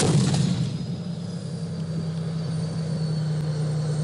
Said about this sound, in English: That's the sound of tanks firing and an aircraft overhead in Han Shaihun.